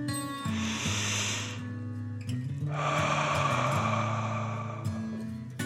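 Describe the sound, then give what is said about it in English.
A deep, slow dragon breath is drawn in and then let out during a children's guided breathing exercise, airy and hissing over soft sustained background music. “bring your shoulders back up to your ears and squeeze. Let them relax back down and take a deep dragon breath in and out.”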